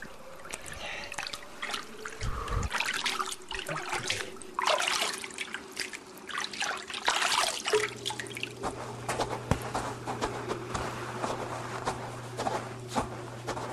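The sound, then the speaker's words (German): Water splashes and drips as people swim in cold water beside a boat's rudder, with many irregular wet splashes and trickles throughout and a low steady hum joining in the second half. “Jetzt schwimmen wir, kommt mir nach. Boah, ist das kalt.”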